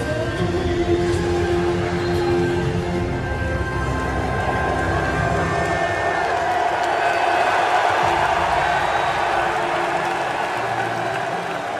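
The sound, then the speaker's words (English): A Dallas arena crowd applauds and cheers loudly as Luka Doncic is reintroduced there, now playing for the Lakers, in a sustained, unbroken wash of clapping and shouts. “So the Mavericks and their fans welcomed him back last night, and he was pretty emotional. Here's Luka Doncic being reintroduced in Dallas, but this time as a Laker.”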